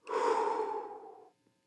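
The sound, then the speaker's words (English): A deep breath let out slowly during a guided relaxation exercise: a long, breathy exhale of about 1.3 seconds that starts full and fades gradually to silence. No speech. “First, take a deep breath. Now let it out.”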